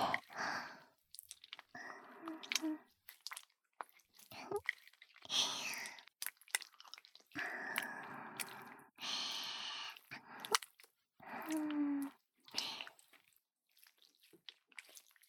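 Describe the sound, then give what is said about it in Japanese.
Wet, slippery squelching of lotion being stirred, many sticky bursts in an irregular rhythm, soft and close with small drip-like clicks between them. “ローションをかき混ぜる音、いいわよね。”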